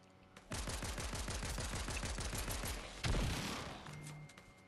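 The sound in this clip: Rapid automatic gunfire rattles in a video game as a fast, steady stream of sharp shots. It ends in a louder, heavier blast that slowly fades out, and no one talks over it.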